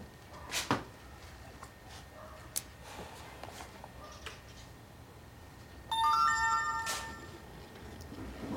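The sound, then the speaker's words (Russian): A phone message notification chime sounds once, a short bright pattern of tones, faint against a quiet background that has a few soft knocks earlier. “Тебе сообщение пришло.”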